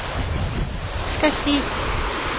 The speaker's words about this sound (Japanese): 総合関川に来ているんですが、昨日の夜雨がたくさん降ったせいもあるんでしょうか、水は勢いよく流れております。